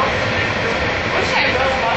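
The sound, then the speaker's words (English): Steady low rumble and hiss of a Los Angeles Metro train in motion, heard from aboard as a passenger rides, continuous and fairly loud under someone talking. “All right, so I'm still on the train, and the next stop will be my stop. I'm just gonna wait for it to stop”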